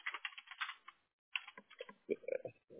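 Rapid typing on a computer keyboard while a name is entered for a signature: many quick, crisp key clicks in a burst, a short pause, then another run of keystrokes.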